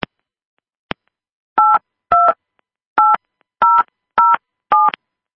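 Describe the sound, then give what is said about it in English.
Telephone keypad tones sound as a PIN is entered: six even, clear beeps in a steady rhythm. Two faint clicks come before them. “Please enter your PIN followed by pound.”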